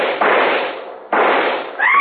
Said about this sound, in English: I raised my rifle and...